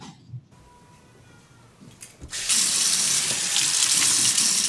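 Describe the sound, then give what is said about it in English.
A sink tap is turned on to wash hands, and the quiet gives way to a steady, hissing rush of running water that continues to the end. “First thing I did was wash my hands.”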